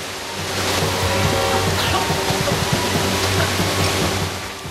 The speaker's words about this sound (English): the waters are inexorably filling the room and threatening to drown them at any minute